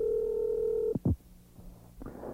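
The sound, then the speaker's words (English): A telephone call comes in with a steady, mid-pitched line tone. It cuts off into a couple of sharp handset clicks, then quiet line hiss and a soft closing burst of noise. “I believe we have a phone call.”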